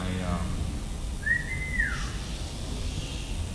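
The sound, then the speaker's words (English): A person whistling a single short note that swells then bends downward, heard over a steady noisy background. “Sitting over there whistling.”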